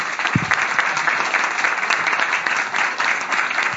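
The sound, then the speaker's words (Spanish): Sustained applause from a gathered audience at the close of a Spanish-language evening talk event: dense, steady clapping that runs unbroken for about four seconds at an even, fairly loud level, with no speech over it. “Un fuerte aplauso a todos”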